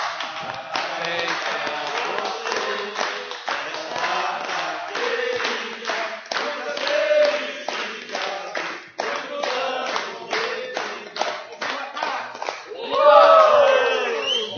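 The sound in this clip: A group sings Happy Birthday (Parabéns) at a birthday celebration, with steady, rhythmic hand clapping on every beat throughout. The singing and clapping grow louder and more excited near the end.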